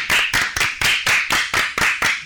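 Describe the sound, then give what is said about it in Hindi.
Children clap together as applause for a school-age group's program, about nine broad, bright bursts in a steady, fairly fast rhythm, loud and without talk. “तो जोरदार तालियां हो जाए आज के कार्यक्रम के लिए।”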